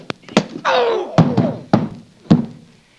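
Roundhouse punches land in a radio drama fight, several sharp, hard thuds spaced irregularly, with a falling vocal cry between the early blows.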